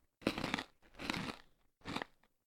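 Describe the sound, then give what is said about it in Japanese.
Crunchy chewing of a homemade cookie: three short, faint bursts of crisp crunching with brief pauses between them and no talk. “クッキー、食べないの？ いただきます。”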